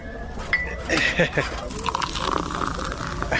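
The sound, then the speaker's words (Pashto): Tea being poured into a cup, with light clinks of cups and a soft trickle of liquid, all heard under ongoing talk. “وایم اصیل سړی ته صبر چې یوه پیاله چای درته واچوم چې ستړی شوی به. نه نه ملک صاحب، نه نه نه، ته دې له ځایه مه خوځېږه، زه خپل اچوم.”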